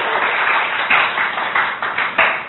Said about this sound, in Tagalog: Palakpakan na Ginoo ni Ana.